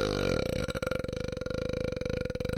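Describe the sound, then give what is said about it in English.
A long, loud, croaky burp that rattles in rapid low pulses for over two seconds, heard alone with no talk. “But I can see what a burp sounds like. It's like,”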